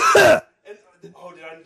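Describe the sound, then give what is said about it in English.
A single loud, rough throat clearing, a short harsh rasp that stops abruptly and is followed by a pause, then quieter talk. “Frog in the throat. You got to get it out.”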